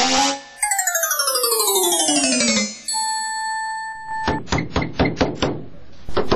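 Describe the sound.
Knocking on a door: a quick series of sharp raps, heard alone. Before them comes a falling run of bright musical tones and a held tone.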